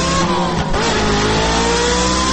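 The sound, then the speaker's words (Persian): A luxury car's engine revs hard as the car accelerates away, loud and sustained with strong tonal engine harmonics and a brief dip partway through. No voices. “سوار خودروی لوکس استانداردش شده، گازش را گرفته رفت.”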